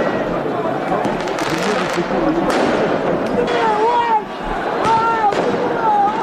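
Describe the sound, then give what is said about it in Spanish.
Fireworks and firecrackers go off during riots in France after PSG's Champions League final win: sharp bangs and crackles sound over a dense crowd din with voices, and several whistling tones glide up and down. “El sonido de esos disturbios, y es el segundo año consecutivo que el PSG de Luis Enrique se hace con la Liga de Campeones”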